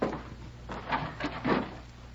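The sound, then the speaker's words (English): Wooden knocks and scrapes as a door is barred tight: a few dull, muffled thuds and a rubbing scrape in quick succession, fairly faint and with no talk. “Better make sure the door's barred tight.”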